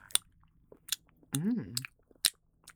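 Sharp crunches and sticky clicks from chewing alcohol-infused lemon cream candy, a few scattered bursts. In the middle comes a drawn-out voiced hum of someone savoring the taste.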